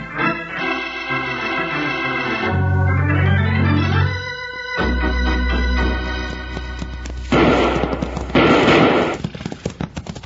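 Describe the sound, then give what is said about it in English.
Six-gun fire in a Western town shootout: dramatic orchestral music with falling, sliding figures leads into a rapid volley of many sharp, crackling shots that fill the final few seconds. “Before they could draw their six guns, they were greeted with gun smoke and action in a town that knew only one man rule.”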